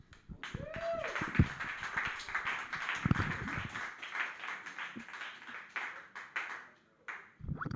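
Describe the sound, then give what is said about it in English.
Faint applause from a small audience for a comedian at an open mic, a scattered, uneven patter of clapping hands that thins out near the end. “Keep it going for him, ladies and gentlemen. Big round of applause.”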